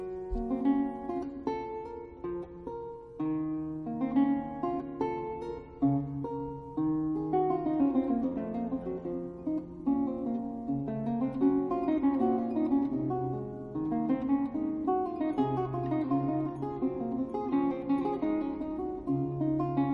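Music performed by a musician: a quiet, solo instrumental passage of many cleanly articulated notes over shifting low bass lines, flowing steadily for the full length with no voices.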